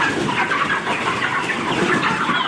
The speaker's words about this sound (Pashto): د کندهار د ارغنداب ولسوالۍ د میانجوی کلی د چرګانو دی فارم کې دا مهال 15,000 غوښین چرګان تر روزنې لاندې دي.